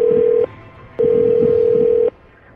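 A telephone tone sounds after a phone call drops, a steady, fairly loud low hum heard as a short burst, then a pause, then a longer burst that cuts off abruptly.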